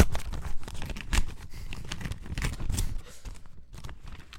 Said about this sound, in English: we have 5 packages. And I'm going to open them in front of you